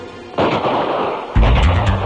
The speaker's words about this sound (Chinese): 外面突然响起了枪声。一个土匪冲进窝棚，还没有说出话来就被一枪打死。